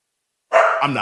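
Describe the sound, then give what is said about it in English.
A dog gives one loud, sustained bark that cuts in abruptly after about half a second of silence and holds to the end. “Would you like for me to talk while you take care of your dog”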